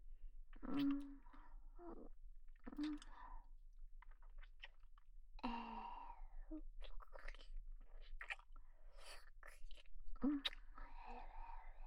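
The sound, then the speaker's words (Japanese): Someone chewing and eating food, with soft crunching bites and moist mouth sounds coming in a few irregular bursts separated by pauses, faint and close throughout. “まだまだ残ってるから食べるね。”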